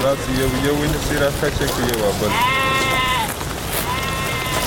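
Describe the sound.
Sheep being kept for slaughter in a Pishin village give a few drawn-out, wavering bleats over a person's continuous talking.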